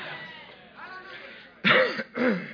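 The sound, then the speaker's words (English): Throat clearing during a church sermon: two rough, gravelly bursts of clearing in quick succession, loud against a quieter, murmuring stretch before them. “Excuse me as I clear my voice.”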